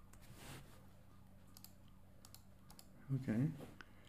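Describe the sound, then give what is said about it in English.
Computer keyboard typing, with light scattered key clicks over a faint background hum and a brief burst of voices near the end. “Okay, type in blue blood and then type in reptilian next to it.”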